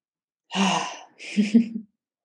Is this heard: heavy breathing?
yes